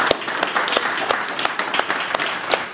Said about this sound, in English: Can we make some noise for our online family?